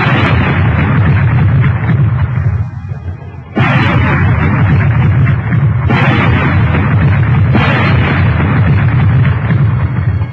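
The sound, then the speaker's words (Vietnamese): Four loud gunshots, each a booming blast followed by a sustained, roaring rumble, come at irregular intervals. “bốn tiếng súng như xé màn tai mọi người”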